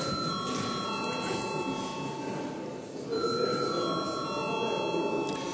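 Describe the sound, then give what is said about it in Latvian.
An electric bell rings steadily in a parliament chamber to call members to a vote, a continuous, even ringing tone that holds throughout with a slight shift midway. “lūdzu zvanu”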